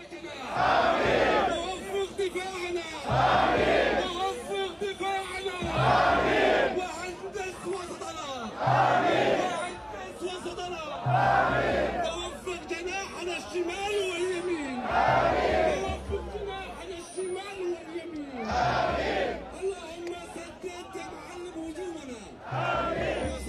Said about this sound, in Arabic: الخاصة بالمشهد يلي لقى انتشار واسع على مواقع التواصل الاجتماعي. وأكيد تفاعل عدد كبير من المتابعين مع الفيديو، مشيدين بعفوية الجماهير والأجواء الحلوة اللي سبقت المباراة. خلينا نشوف الفيديو.